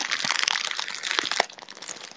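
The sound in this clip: Crinkling plastic as an instant noodle packet is torn open: dense, irregular crackles and rustles throughout, with a few sharper snaps standing out.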